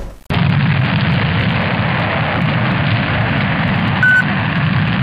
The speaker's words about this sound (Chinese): 起飞， 起飞。 朱雀三号起飞约137秒后